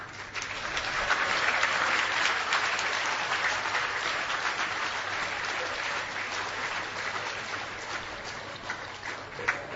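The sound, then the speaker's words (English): Sustained audience clapping at a Hare Krishna gathering. A dense, steady wash of claps swells early and then slowly tapers over about ten seconds. “I don't know if Prabhupada meant that type of clapping. He meant clapping in kirtan.”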